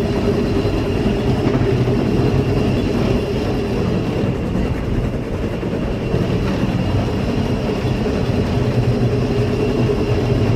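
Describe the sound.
Locomotive running hard with its two-stage regulator open at full pilot valve, a loud, steady rumble and rattle of wheels and machinery that holds level throughout, with no distinct beats.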